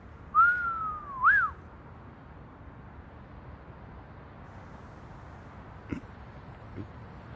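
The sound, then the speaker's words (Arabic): Whistling said to come from a bird outside: a clear, gliding tone that slowly sinks in pitch, then a short note that jumps up and falls away, both near the start and followed by quiet. “مو انت اللي صفرت؟ لا، في حدا بالبيت؟ لا فرخ برا.”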